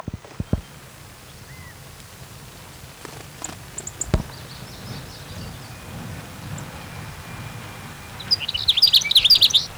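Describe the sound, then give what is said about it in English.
Sage sparrow song: a quick, bright burst of high tinkling notes near the end, after a long quiet stretch of low rumble with a few faint, scattered chirps and clicks. “Here's sage sparrow number two.”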